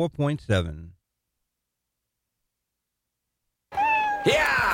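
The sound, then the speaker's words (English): Cats meowing in two short bursts separated by a stretch of silence; the first holds a couple of clear rising cries, the later one several overlapping, busier meows. “Oh, come on! Not that way. Get back here. Oh, Jebediah, I already told you. You can't herd cats.”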